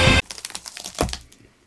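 Crackling and crinkling as a latex-covered Book of the Dead prop is opened, starting with a loud rustling burst and followed by a run of small, sharp crackles and creaks that fade toward the end.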